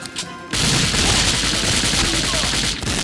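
Rapid automatic gunfire from a shooter video game rattles in one loud, continuous burst lasting a couple of seconds, after a brief quieter moment at the start.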